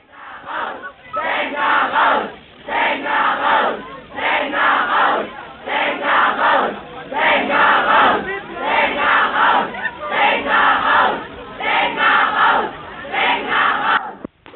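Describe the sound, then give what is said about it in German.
About 500 school students chant at a spirited anti-nuclear protest march to a district office. The loud, unified voices repeat short slogans in a steady rhythm, with brief dips between each rallying phrase. “Wie ihr hört, war das eine lustige kämpferische Demo mit ca. 500 Schülern, die ans Landratsamt gezogen ist.”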